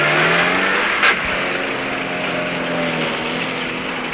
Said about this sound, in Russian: Машина уезжает.